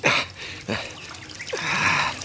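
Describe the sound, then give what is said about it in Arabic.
A drink being poured for a sultan: a few splashing, trickling gushes of liquid, each starting abruptly and then thinning out, with a longer pour at the end. “يا ساقينا صب صب خليني نشرب”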